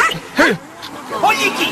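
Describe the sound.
A dog gives a couple of short, high yipping barks, spaced apart over a low background hum.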